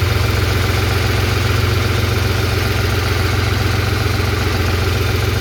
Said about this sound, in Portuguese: Esse era o barulho de dentro da cabine do caminhão dele.